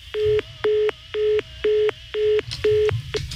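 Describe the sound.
Telephone tones on a phone that is not working: six evenly spaced, equal-pitched beeps followed by a clipped seventh, each a steady tone of the same length, fairly clear with no talk.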